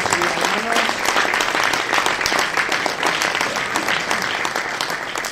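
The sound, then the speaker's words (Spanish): Applause at a political plenary meeting, a thick, sustained round of many people clapping with some voices mixed in, steady for about five seconds. “creo que no me dejó a nadie, que vinieron y que están aquí con nosotros. Esto se merece un aplauso.”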